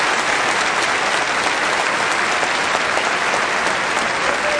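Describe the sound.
Audience applause for a singer at the Crystal Cathedral, a steady, dense wash of clapping that holds at an even, loud level for the whole stretch, with no voices on top.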